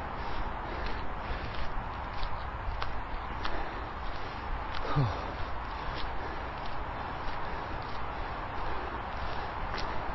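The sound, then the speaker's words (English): Footsteps trudge up a steep hill in a steady, regular rhythm. Many even steps repeat over a constant, noisy background. “I'm going to walk up the top of this next hill. A little undulation, quite steep.”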